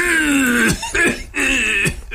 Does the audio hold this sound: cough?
yes